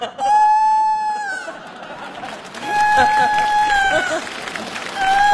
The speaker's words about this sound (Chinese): 这咋还打鸣呢？